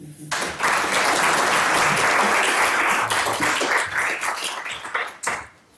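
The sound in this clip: An audience at an LSE Festival lecture applauds to welcome the speakers, the clapping bursting in at once, staying full and even for several seconds, then thinning and dying away at the end.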